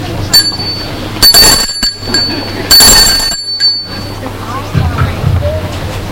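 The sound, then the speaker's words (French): A doorbell rings at a house's front door, reached by climbing the front steps: a few bright, chiming rings in separate bursts over a steady low hum. “Il va vers la maison, monte le perron et va sonner.”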